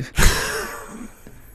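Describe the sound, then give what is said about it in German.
A man yawns, starting with a loud, breathy burst that tapers into a long, drawn-out exhale lasting about a second. “Da gähnt er mich hier an, das gibt's doch gar nicht.”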